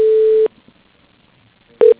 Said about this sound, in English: I'll just put you through to his voicemail. One moment.